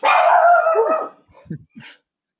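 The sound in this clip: A dog gives one loud, drawn-out bark that drops in pitch as it ends. A few faint short yips or whimpers follow.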